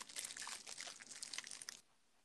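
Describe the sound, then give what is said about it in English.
Quiet crunching of a fortune cookie being eaten, mixed with crisp crinkling of its wrapper, a dense run of small crackles that stops abruptly near the end. “Are you still eating? No, I'm eating my fortune cookie right now.”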